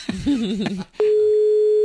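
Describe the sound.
A telephone tone on a call cuts in abruptly after a brief voice, then holds as a loud, steady, single-pitched hum, unbroken to the end.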